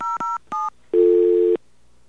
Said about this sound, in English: It could be that our touch tones are a bit screwy.